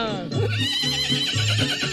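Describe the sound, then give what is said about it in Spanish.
Horse neighing: loud, shaky whinnies with wavering, harmonic pitch, repeated in several bursts throughout. “Siempre relincha, bendito sea mi Dios, el carajo. Siempre relincha cuando uno la llama Sandrita.”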